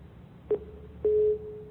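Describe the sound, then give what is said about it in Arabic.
A phone caller's line disconnects on air, leaving two faint steady telephone tones, a short one followed by a longer one, over a low background hum. “انفصل يبدو راح الاتصال.”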